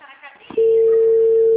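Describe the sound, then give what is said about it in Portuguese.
A telephone ringback tone sounds on an outgoing call that nobody answers. After a moment of soft talk, a loud, steady, single-pitched tone starts and holds unbroken to the end. “Ninguém tá atendendo, só tô ligando.”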